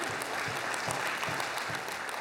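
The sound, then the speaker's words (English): A large audience at a church marriage night claps in dense, steady applause that holds at an even level for the whole clip. “You can clap. I'll just keep my hand here awkwardly.”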